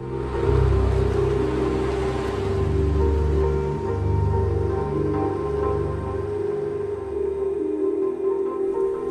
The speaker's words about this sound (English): He gets back into his car too. He does a U-turn in the road and heads slowly away.